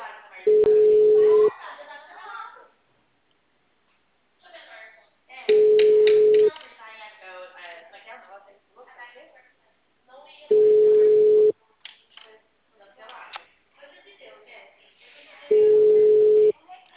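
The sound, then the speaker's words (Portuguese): A telephone call rings out: a steady, mid-pitched ringback tone sounds four times, each about a second long and evenly spaced several seconds apart, with talking in the gaps between tones. “Por causa dessa, eu tô ligando pra um cliente.”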